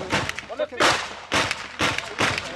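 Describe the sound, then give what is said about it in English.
Mortar round exploding in a combat zone. Several heavy, harsh booming blasts follow one another in quick succession, loud and broad, with the noise barely settling between bursts. “Then it gets worse. That's a mortar.”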